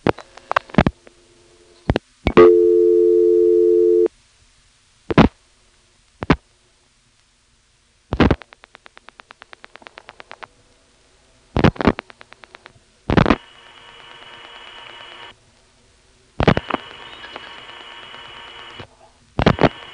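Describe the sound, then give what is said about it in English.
Telephone line sounds as a call routes into Bridgewater over a Type 2 carrier trunk via a callback circuit: sharp clicks, a steady low humming tone burst, a rapid buzzing pulse train, and stretches of hissing noise. “When we get as far as 71982, you'll hear one of those Type 2 carrier trunks coming on, indicating that we are getting into Bridgewater via the callback circuit.”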